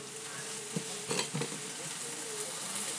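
Chinese food with a hoisin-like sauce sizzles in a shallow pan, a soft continuous frying hiss broken by a few quiet clatters of stirring against the pan.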